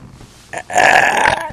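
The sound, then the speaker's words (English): A person burps on purpose: a short grunt-like onset, then a loud, raspy belch lasting about a second. No talking. “When you boo to somebody, you got to burp at them.”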